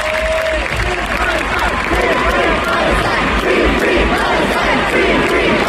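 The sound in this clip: A concert audience cheers loudly, a dense, continuous roar of shouts, whistles and applause that keeps a steady level from start to finish.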